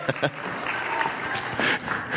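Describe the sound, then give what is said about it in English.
Applause from a live audience gives a fairly steady wash of clapping with a few sharper claps near the start, and a voice briefly speaks over it. “Thank you, guys. Let's give them a round of applause.”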